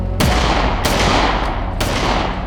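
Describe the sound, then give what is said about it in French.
Gunshots from a weapon firing rubber bullets: three loud, sharp cracks at uneven intervals, with a fainter crack between the last two and no talk. “dégaine et il tire sur le motard. L'homme s'en sort, ça n'était que des balles en caoutchouc.”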